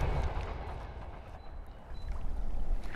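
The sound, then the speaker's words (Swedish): A train passing by nearby, a continuous broad roar with heavy low rumble that swells slightly toward the end, with no talk over it. “Det är ett tåg som åker förbi här nära så tror jag att en bil kanske vill åka förbi också.”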